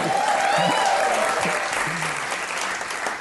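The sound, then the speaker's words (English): A small audience gives a round of applause, brisk and dense clapping that eases slightly toward the end, with a voice or two sounding over it. “Let's give a round of applause for that.”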